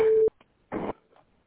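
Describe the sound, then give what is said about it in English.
A single short, steady mid-pitched beep from a voicemail system marks the start of recording. It is followed by quiet and then a brief burst of noise. “Please leave your message after the tone.”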